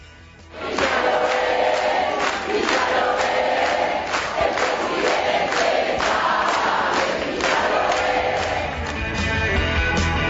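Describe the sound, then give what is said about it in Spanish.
Frente Amplio supporters loudly chant at Bordaberry as he leaves. The massed voices start after a brief quiet moment and then hold as a dense, steady roar to the end. “En el momento en que se iba, sí, debió escuchar los cánticos que le dedicó la militancia Frente Amplista.”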